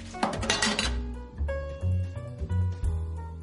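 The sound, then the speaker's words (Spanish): A cup thrown into a kitchen sink gives a loud clattering crash of crockery, followed by a few lighter clinks and rattles as it settles, with no voices. “Tira la taza al fregadero.”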